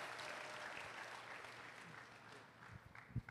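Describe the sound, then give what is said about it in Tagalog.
Faint applause from a church audience welcoming a pastor during an anniversary service. The clapping is a soft, steady patter that thins out near the end, where a few sharper claps stand out. “Isang malakas sa palakpak for the man of God.”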